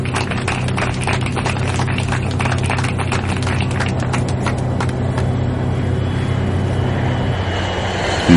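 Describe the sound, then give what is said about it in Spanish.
A landing airplane's engines roar in a loud, continuous drone with a sustained tonal whine and a broad rushing noise beneath. “La avión aterriza”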